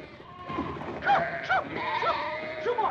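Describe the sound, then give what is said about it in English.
Sheep bleat while escaping from a pen and gathering in front of a general store. Several wavering, nasal bleats rise above a soft, low background murmur. “The sheep are escaping from the sheep pen. Some have gathered in front of the general store.”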